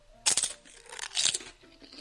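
A communion wafer is bitten and chewed, giving two short, crisp crunching bursts separated by a brief pause. The crunches are faint, with no talk.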